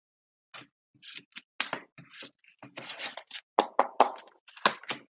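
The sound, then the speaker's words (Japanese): Cards being shuffled and drawn from an oracle advice card deck, a long run of crisp taps, slaps and papery rubs in quick, uneven bursts, with no talking. “お待ちください。アドバイスカード引いていきます。”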